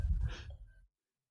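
A single fairly faint sneeze, a short breathy burst lasting under a second, followed by silence.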